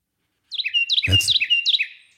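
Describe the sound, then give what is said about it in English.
Carolina wren song: a loud, rapid series of four repeated rolling phrases of bright, high chirps, delivered alone in quick succession. “That's the very loud broadcast of the Carolina wren.”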